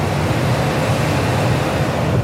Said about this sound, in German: Die Zentrale gibt per Funk grünes Licht. Die Matrosen machen die Seile los, die MS Bern nimmt Fahrt auf.